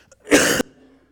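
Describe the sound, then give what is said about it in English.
A single cough: one short, harsh, breathy burst, loud and alone, followed by quiet. “As you're turning there, I'm going to cough. Excuse me.”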